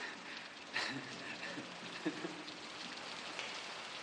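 Steady rain pours down outside a temple doorway, a dense, even hiss with scattered droplet taps, continuous and unbroken throughout, with no voices over it.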